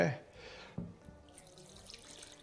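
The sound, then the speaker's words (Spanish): Water is poured into a pot to cover potatoes, a soft splashing rush that starts strongly and then settles into quieter trickling, with a brief knock partway through. “Bueno, agüita. ¿Cuánta agua se le pone? Pues la suficiente agua para cubrir las patatas.”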